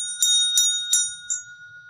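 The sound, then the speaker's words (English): A small meditation bell struck four times in quick, even succession: bright, high ringing hits over a steady sustained tone, the fourth strike noticeably softer than the others. “This is my bell. I use it in meditation.”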